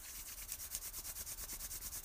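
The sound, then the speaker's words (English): Hands rubbing together in quick, even back-and-forth strokes, a soft, faint brushing rhythm heard alone with no talk. “Begin rubbing your hands together.”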